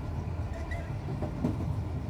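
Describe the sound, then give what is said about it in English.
A train running on rails: a continuous low, rumbling roar with faint rattling and clatter over it, steady in loudness throughout, with no voices. “he's no longer riding a streetcar. He's on a train.”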